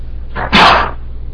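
A single sneeze bursts out during a religious lesson, one short, sharp, breathy blast with a brief intake before it, over a low steady hum.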